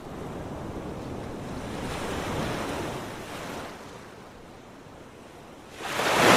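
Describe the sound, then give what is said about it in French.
Sea waves heard as a boat heads back into harbour: a continuous rushing wash of water with wind, easing to a softer lull before a louder surge swells at the end. “Voilà, écoutez cette mer. Et oui, nous rentrons au port.”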